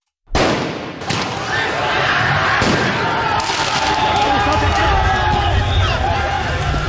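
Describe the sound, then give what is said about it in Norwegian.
Football riots in France after Paris Saint-Germain won the men's Champions League: a loud bang opens it, then more sharp firecracker and gunshot-like cracks burst over a continuous, dense roar of crowd noise. “Dette lyden av omfattende fotballbråk i Frankrike i går kveld og i natt. Etter at de franske mestrene Paris Saint-Germain vant mesterligaen i fotball for menn, kom feiringa ut av kontroll flere steder.”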